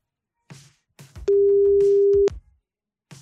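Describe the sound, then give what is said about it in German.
An outgoing call to a phone in Osternienburger Land, Anhalt-Bitterfeld, Germany, gives its ringing tone: one steady, low, loud beep lasting about a second, with a few faint short sounds before and after. “es müsste im Osternimburger Land in Arnold-Bitterfeld bimmeln.”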